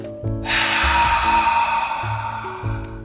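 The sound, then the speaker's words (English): A slow exhale during a breathing exercise for sleep relaxation. It is a soft, steady, breathy rush lasting about two and a half seconds over a faint tonal background. “Last one, inhale, exhale,”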